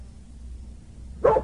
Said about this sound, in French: ce chien est insupportable.